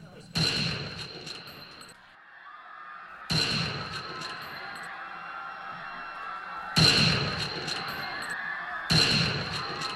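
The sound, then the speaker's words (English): Gunshots ring out near the president's car as spectators try to photograph him: four loud, sharp blasts spaced a few seconds apart, each leaving a long ringing tail. “Get down! Jean, they're shooting!”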